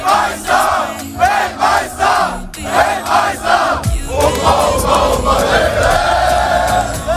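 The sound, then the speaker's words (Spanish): Crowd noise fills a New Jersey street before a World Cup match between Germany and Ecuador. Many voices chant loudly in a steady rhythm, then the chant gives way to a sustained roar of shouting and cheering. “Así suenan a estas horas las calles de Nueva Jersey.”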